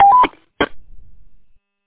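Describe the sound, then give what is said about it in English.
A CB radio roger beep ends a transmission: a short, loud electronic tone stepping slightly upward, followed by a brief crackly burst and fading static. “Just as common courtesy, if you could turn your Roger beep off, we generally don't use that on here.”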